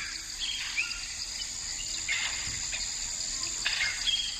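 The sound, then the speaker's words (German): Mangrove swamp ambience heard while wading waist-deep in water: a faint, continuous hiss of insects with scattered brief bird chirps and a soft trickle of water, with no clear splashing. “In den Mangroven bis zum Bauch im Wasser. Jagdfieber. Hör nur.”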